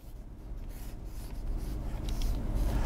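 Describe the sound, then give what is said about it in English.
A cube being drawn by hand, heard as soft scratchy rubbing strokes in a steady texture that grows slightly louder toward the end, with no talking. “So first I'll draw a cube.”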